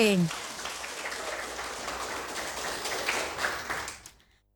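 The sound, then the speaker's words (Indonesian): A group gives a spirit clap for quiz team D: a dense, steady patter of many hands clapping together for several seconds, then fading quickly into silence. “Ya, tepuk semangat untuk regu D.”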